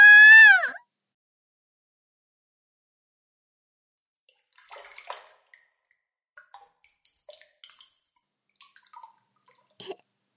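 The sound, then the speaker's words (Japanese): Bath water in a tub makes faint, sparse splashes and drips. They come at irregular moments through the second half after a quiet stretch. “いいお湯ですね。”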